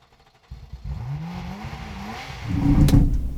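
A car engine revs as a learner driver changes gears. After a quiet start, the engine note kicks in and climbs in pitch, holds for a while, then swells into a louder, rougher surge near the end.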